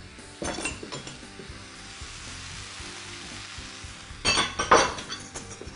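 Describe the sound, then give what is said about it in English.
Harissa is stirred into vegetable broth in a pan, with a steady faint sizzle under a few sharp metallic clinks of utensils near the start and a louder cluster of clinks toward the end. “Now I'm going to take some more harissa, what's left from my seasoning the fish, and I'm going to add that to some vegetable broth.”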